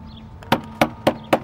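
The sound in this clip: Someone bangs on a door: four hard, evenly spaced thuds about a quarter second apart, loud and sharp, with no voices.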